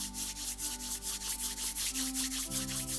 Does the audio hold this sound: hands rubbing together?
yes